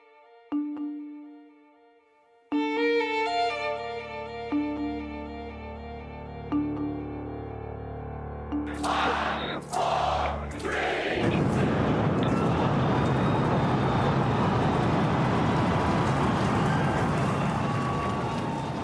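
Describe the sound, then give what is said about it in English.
A SpaceX Starship rocket blasting off: sustained electronic tones shift in steps, then give way to a loud, broad rumbling roar that swells and holds steadily to the end. “that was the sound of the billionaire's SpaceX rocket Starship blasting off.”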